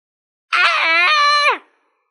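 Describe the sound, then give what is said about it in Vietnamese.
A man screams in pain in a single loud, strained cry lasting about a second, its pitch dropping as it trails off, with silence before and after. “Phượng Thiên Tiên Sứ gào thét một tiếng, trong lòng càng phẫn hận tới cực điểm.”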